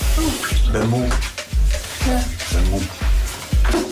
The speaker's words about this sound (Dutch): Weet je, ik ga even wat water opzetten, hoor.